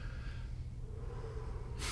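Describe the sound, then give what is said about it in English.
A person demonstrates a deep, calming breath: a faint, airy inhalation ends in a brief, sharper rush of breath, with no talk. “just this deep, calming breath”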